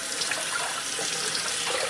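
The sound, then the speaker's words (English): Running water rinses a cup of blueberries in a colander: a steady, even hiss of flowing water that holds constant throughout, with no talk. “So I'm just giving my 1 cup of blueberries a rinse.”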